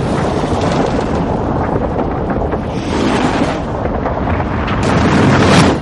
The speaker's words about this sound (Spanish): Abajo el ascensor explota y sus llamas invaden el vestíbulo.